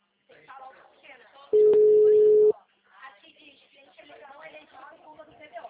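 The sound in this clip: Ringback tone on an outgoing phone call: one steady, low, flat beep lasting about a second, with people talking before and after it.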